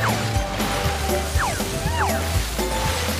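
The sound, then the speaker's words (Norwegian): Water splashes steadily as people ride a water slide down into a shallow pool. The rushing, sloshing noise runs continuously, with a low rumble and brief voiced sounds mixed in. “Vel, hva sier dere til at vi bare går ned og har det moro og sklir ned vannsklia? Inn i det grunne bassenget!”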